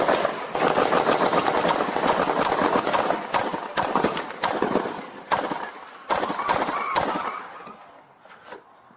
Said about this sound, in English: Central, we got shots fired! Central, we got a man with an AK-47, he's shooting at us.